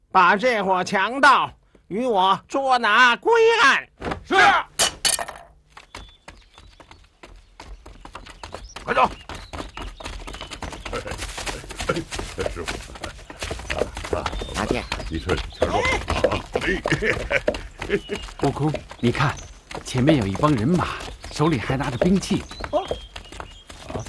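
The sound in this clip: Hoofbeats of an armed band of riders approaching on horseback. The rapid, dense clatter builds from around the middle and keeps going, with voices speaking at the start.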